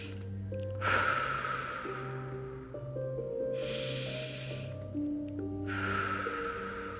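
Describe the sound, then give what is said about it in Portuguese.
Slow, audible exhalations with a voiced sound during a breathing exercise, three breathy releases of air over a soft, steady musical background. “Quando você estiver expirando, deixe sair um som. Assim, ó.”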